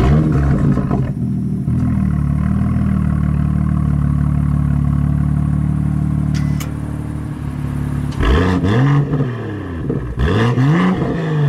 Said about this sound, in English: here is the sound of music. The BMW M2 Coupe's engine note.